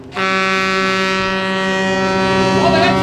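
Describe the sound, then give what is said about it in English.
A loud, sustained horn blast from a century-old, metal-hulled, three-mast tall ship sailing on the Delaware during a parade of sail at a tall ship festival: one steady, deep, harmonically rich tone that holds for the whole clip. “The 21 crew members are sailing the metal-hulled, three-mast ship around the Delaware for the Grand Parade of Sail,”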